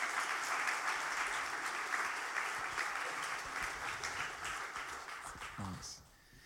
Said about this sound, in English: Why don't you put your hands together and welcome them.